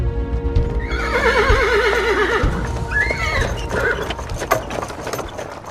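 A horse whinnies loudly with a long, wavering cry, while hooves clop steadily on the ground, drawing a king's carriage. Many quick, even hoofbeats continue under the neigh and carry on alone after it fades.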